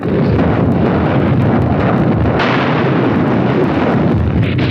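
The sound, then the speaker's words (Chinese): Artillery firing at a target in battle makes a continuous, very loud, heavy rumbling roar with no clearly separate blasts and no voices. “向四号目标开炮。 四号目标射击。”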